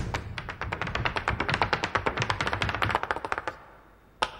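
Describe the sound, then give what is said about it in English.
Stags tapping their antlers together make many rapid, sharp clicking taps in a busy, irregular rhythm. After a short pause, one louder tap follows alone. “He points to a group of other stags as they tap their antlers together.”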